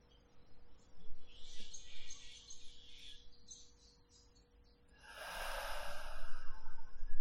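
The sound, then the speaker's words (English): An audible exhale pushes all the air out of the lungs. A long, loud rush of breath noise swells after quieter, breathy sounds and holds steady to the end. “exhaling with some sound, pushing all the air out of your lungs, holding your breath out for a count of 5.”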